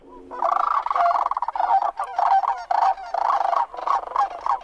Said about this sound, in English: The sandhill crane, I gather, is that sound. I love that sound, and I love when I can actually spot one of those.